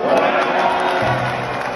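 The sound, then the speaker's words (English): A crowd of supporters cheers in welcome as Boris Johnson, mobbed by press, arrives to deliver a speech, making a loud, dense roar of voices that is steady throughout. “It's been quite a rapturous welcome for Boris Johnson by all accounts.”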